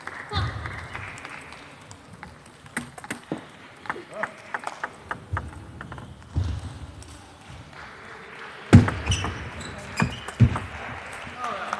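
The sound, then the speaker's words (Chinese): A table tennis ball bounces with many sharp, crisp clicks during Sun Yingsha's serve in a women's singles match. The clicks are irregular and stand over a steady background murmur, with a few louder hits near the end. “女子单打王晓彤对孙颖莎，第一局比赛孙颖莎发球0-0。”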